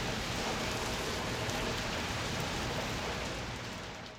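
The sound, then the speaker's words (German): Rain falls in a soft, steady hiss of dense, even patter that stays faint and unbroken, then tapers slightly near the end, with no voices. “Das Wetter ist schlecht. Er kann den Regen hören.”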